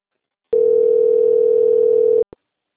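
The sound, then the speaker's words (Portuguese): Telephone line tones during a call transfer: one steady mid-pitched tone holds for under two seconds, stops, and is followed by a single short beep before silence. “Só um minutinho que eu vou transferir a ligação”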